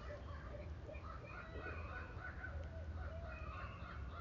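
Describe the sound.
A barred owl calls in the morning with a series of hoarse, hooting notes that rise and fall. The calls are fairly faint over a steady low rumble of background noise.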